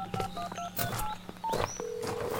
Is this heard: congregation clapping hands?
no